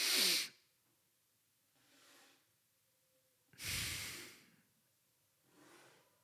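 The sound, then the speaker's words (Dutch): Slow breathing during a box-breathing demonstration of inhale, hold and exhale: four soft, airy breath sounds separated by quiet pauses, the first and third fuller and louder, the second and fourth fainter. “Eerst ga je 4 seconden inademen. Dan ga je 4 seconden je adem ophouden. Dan ga je 4 seconden uitademen. En dan ga je 4 seconden terug je adem ophouden.”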